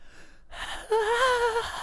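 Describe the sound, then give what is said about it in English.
A voice jokingly imitates breathing in and out: a breathy rush of air gives way to a short voiced, wavering tone. “Every time the wild inhales and exhales, it sounds like that.”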